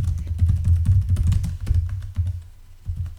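Rapid typing on a computer keyboard as an address is entered, many quick clacking keystrokes in an uneven, busy rhythm, with no talk.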